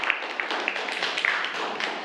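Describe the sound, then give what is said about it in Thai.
Students in a Thai classroom clap for themselves after answering together. The soft, scattered handclaps come as a few sharper pops over a faint, even wash of clapping. “ปรบมือให้กับตัวเองนะครับ”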